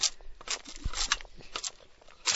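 Rasping strokes of a cane-peeling sickle stripping cane, several short scraping bursts at an uneven pace, with soft crunchy texture between them.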